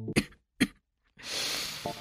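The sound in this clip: Coughing in a smoke-filled hair salon: two short, sharp coughs close together, followed by a longer, rough, breathy noise.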